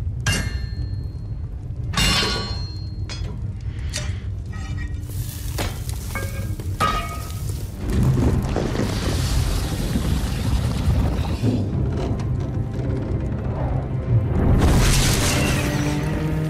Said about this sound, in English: If you don't know what's going on here, there is a cauldron and something's being melted and two new swords are being forged.